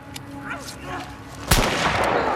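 A gunshot fired at close range into a downed pilot cracks once as a sharp, loud blast midway, followed by a noisy ringing tail over low background rumble.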